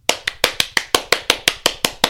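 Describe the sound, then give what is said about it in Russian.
Applause after a political speech, heard as twelve sharp, evenly spaced hand claps in a steady rhythm, loud and alone without voices. “Далее следуют бурные, продолжительные аплодисменты.”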